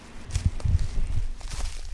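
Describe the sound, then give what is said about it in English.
Footsteps of people walking through Białowieża Forest, a series of soft, crunching steps at an unhurried, slightly irregular pace, fairly quiet against a faint outdoor background. “I'm walking through Białowieża Forest with an ecologist who works in the area.”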